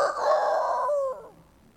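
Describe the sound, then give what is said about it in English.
A rooster crows once somewhere in a city, a loud, strained, harmonic call lasting about a second before it breaks off, with no voices. “There was a rooster somewhere in the city, and it crew.”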